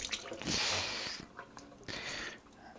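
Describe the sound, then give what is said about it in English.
Water runs over an egg shell as it is washed, in two stretches of rushing, splashy flow with small wet handling noises between them. “Wash off the shell.”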